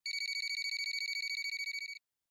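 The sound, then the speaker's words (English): A telephone rings with a high-pitched electronic trill, a fast, even string of bright pulses lasting about two seconds before cutting off into silence. “the phone rang again.”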